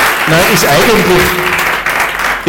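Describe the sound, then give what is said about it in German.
An audience claps in a steady, dense patter of applause that continues throughout, with a man's voice speaking over it. “eigentlich darf man gar nicht klatschen”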